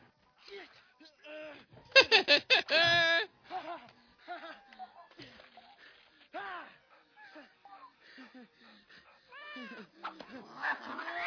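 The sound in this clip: A cat meowing and yowling many times in uneven bursts. A loud, dense cluster of yowls comes early, followed by softer, scattered meows that bend up and down in pitch.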